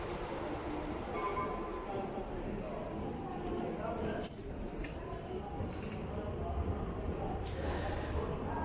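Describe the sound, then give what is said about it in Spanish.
A train nearing the end of its route into Istanbul gives a steady low rumbling drone with faint rattles and clicks above it, fairly quiet and even throughout. “Aún así debo aclarar que, pese a que este tren está a punto de finalizar su recorrido, todavía estoy algo lejos de las zonas importantes de la vieja Constantinopla.”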